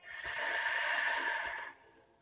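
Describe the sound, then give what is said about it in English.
A single long, deep breath, heard alone as a soft, airy rush that holds steady for over a second and then stops abruptly. “Deep breath in and out.”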